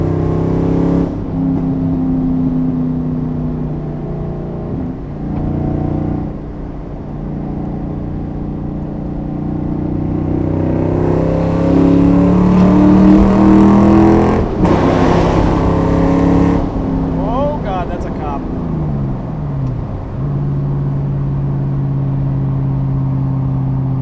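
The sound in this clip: A car engine revving to about 5,000 rpm while shifting up through the gears, heard from inside the car with the microphone on the driver's lap. A loud, steady drone climbs in pitch, then drops at each gear change, with no talking.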